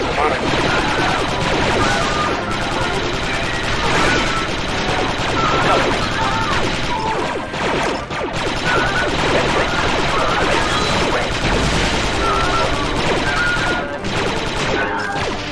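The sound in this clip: Gunfire in a video game battle in a hangar with Geonosian fighters: loud, continuous rapid shots and crashing impacts fill the whole stretch, with voices mixed underneath.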